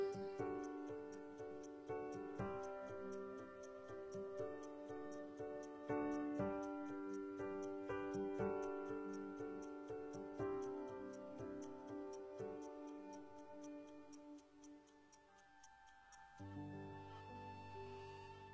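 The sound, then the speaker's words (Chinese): Clock hands tick in a steady, even stream of many crisp ticks, heard alongside melodic music until the ticking stops near the end. “这是听到时针滴滴答答走的声音，也是岁月流过的声音”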